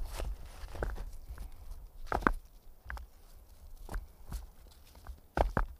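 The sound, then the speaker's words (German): Footsteps crunch through rustling fallen leaves in a forest, a long run of irregular, dry, crackling steps with brief louder scuffs scattered throughout, heard alone with no voices. “Füße gehen. Laub raschelt. Leiser und leiser.”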